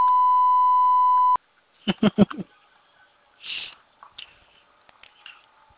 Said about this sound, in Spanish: Deje su mensaje después del tono.